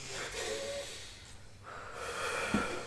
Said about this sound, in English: breathe in with me. Ready?